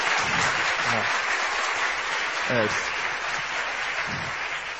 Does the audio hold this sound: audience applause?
yes